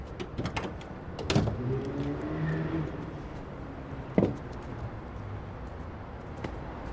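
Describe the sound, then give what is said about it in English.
A car trunk is opened and then shut, heard as a few clicks and a mechanical whir followed by a sharp, solid thump of the lid closing. “He sets the items on the street, then closes the trunk.”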